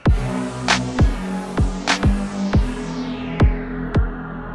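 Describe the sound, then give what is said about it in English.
An electronic beat plays alone: punchy low kick thumps and snappy, hissing high hits repeat in a steady rhythm over humming low synth tones. “what you just heard was our swear warning followed by an awesome electronic beat.”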